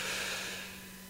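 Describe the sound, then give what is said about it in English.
A deep breath drawn in on the count of three during a guided gratitude breathing exercise: one soft, airy inhale that is quiet throughout and fades slightly toward the end. “take the deepest breath you can and hold it in the basement of your lungs. One, two, three. Inhale.”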